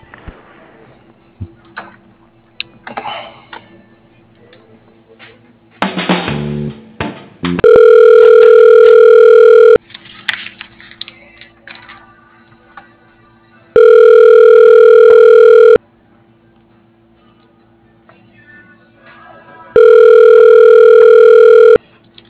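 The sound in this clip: Telephone ringback tone plays while a call is transferred to voicemail: three long, steady buzzing tones separated by stretches of faint line noise and scattered clicks.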